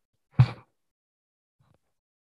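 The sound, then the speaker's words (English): A single short, forceful exhale during a yoga breathing exercise, a brief, breathy puff of air followed by near silence. “Breath out. It's empty. See if you can press out more breath than you took in.”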